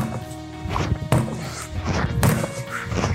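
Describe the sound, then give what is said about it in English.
A sledgehammer strikes a tire during a workout, landing two heavy, dull thwacks about a second apart over steady background music. “make sure that when you're hitting the tire, you don't bounce back up and hit you in the face”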